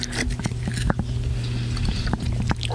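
Cookies being eaten, with several crisp, sharp crunches popping out at irregular moments over a steady low hum.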